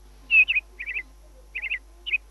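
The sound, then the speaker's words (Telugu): Sparrows chirp in short, bright, high bursts, grouped in quick clusters of two or three notes with brief pauses between, clear against a quiet background. “ఆ జాతిలో చివరికి మిగిలిన ఒకనొక పిచ్చుకల జంట విషాద జీవన గీతం విందాం.”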